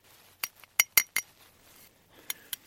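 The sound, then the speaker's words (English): Sharp metallic clinks come from a serving spoon striking a small metal flask as it is filled with snow. A quick cluster of about five taps is followed by a pause and then two more light clinks, with no talk. “she has a small metal flask and she's filling it with snow with a serving spoon”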